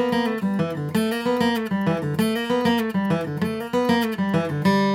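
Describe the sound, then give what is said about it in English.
An acoustic guitar plays a slide lick off a G chord, repeating the motif and ending on a G. Plucked notes ring in a steady, recurring pattern, with the phrase returning several times. The guitar plays alone with no voice. “I'm gonna play a G chord, go into that slide lick, and instead of ending on that open D string, I'm gonna end on a G.”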